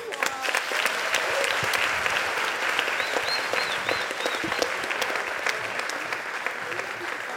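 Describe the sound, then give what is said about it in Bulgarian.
Sustained audience applause at a comedy roast show, a dense, steady wash of clapping that holds at an even level throughout. “Продължете с аплодисменти, докато оправя стойката, моля ви.”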